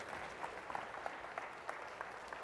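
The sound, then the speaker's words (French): During a church service, an audience applauds in celebration, a faint, even patter of many hands clapping, with a few sharper claps standing out. “Nous célébrons et applaudissons à l'avance ce matin la victoire que tu vas nous donner dans le nom de Jésus, et tout le monde dit amen et applaudissez ce que Dieu va faire.”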